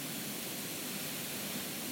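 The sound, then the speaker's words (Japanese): A washing machine runs a load of laundry, giving off a faint, steady, even rushing hum with no distinct events. “今 洗濯物を 回してしまったので、”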